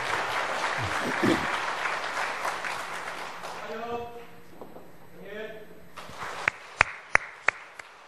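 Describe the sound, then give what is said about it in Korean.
A church audience applauds in a loud, dense burst that gradually thins out and fades. A voice then speaks, and a few sharp, separate knocks or taps follow near the end. “박수로 축하해 주십시오.”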